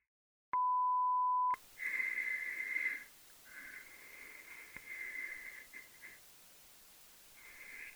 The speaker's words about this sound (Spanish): mensaje después del tono.